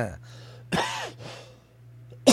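Throat clearing from a tickle in the throat: a few short, rough bursts separated by brief pauses, over a steady low hum.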